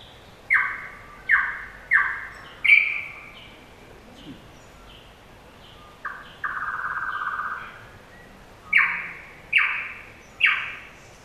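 Birds give harsh, squawking winter calls: a series of short, abrupt squawks, a pause, one longer drawn-out call, then several more squawks in a steady rhythm, clear and fairly loud over a quiet background.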